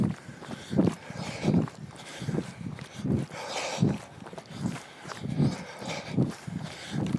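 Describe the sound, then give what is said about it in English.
Running footsteps on a dirt farm maintenance road with little muddy potholes, between fields, during a trail run: a steady rhythm of soft, dull thuds that continues throughout. “So, like now I'm running on a dirt road that's a farm maintenance road. So it, it's got little muddy potholes kind of here and there. It's totally trail running.”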